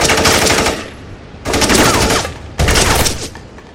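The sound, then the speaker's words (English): Loud automatic rifle fire during an armed standoff, three long rapid bursts of shots with brief gaps between them. “You got a license for that automatic rifle”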